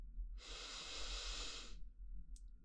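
A person takes one deep inhale as part of a guided relaxation breathing exercise. The breath is a steady, airy rush lasting about a second and a half, heard alone, followed by a brief soft sniff.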